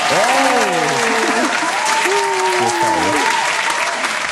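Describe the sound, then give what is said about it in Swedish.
A studio audience applauds in steady, full clapping that runs throughout, while people talk over the top of it. “Kan vi få en applaus från en som kan klappa här”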